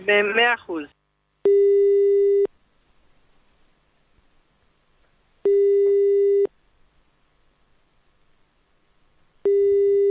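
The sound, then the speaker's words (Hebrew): A telephone ringback tone plays while a live on-air call is placed to a listener's father. A brief burst of speech opens, then steady mid-pitched beeps of about one second each repeat at long, even gaps, the last one cut off at the end. “אז אנחנו מההפקה נתקשר אליו, אנחנו קיבלנו את הטלפון שלו בשידור, ונפתיע אותו.”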